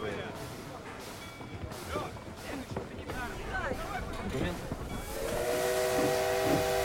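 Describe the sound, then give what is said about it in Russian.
Steam locomotive whistle from a train carrying wounded soldiers, a loud sustained multi-tone blast with hissing steam, following several seconds of busy voices and clatter. “Паровоз окутывается дымом, поезд отъезжает.”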